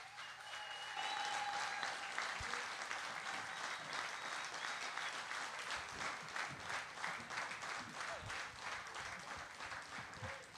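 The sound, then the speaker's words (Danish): An audience gives a big hand to comedians Uffe Holm and Torben Chris: steady, fairly quiet applause that swells within the first second and then holds as an even patter of many hands. “Giv en stor hånd til Uffe Holm og Torben Chris.”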